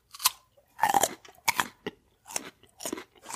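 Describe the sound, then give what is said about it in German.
Crisp crunching of raw kohlrabi being chewed, coming in several uneven bursts of moist, crackly bites with short pauses between them. “Warum mümmelst du so komisch? Kannst du mal vernünftig essen? Kannst du mich mal essen lassen, wie ich möchte? Und In Kohlrabi mümmelt man halt.”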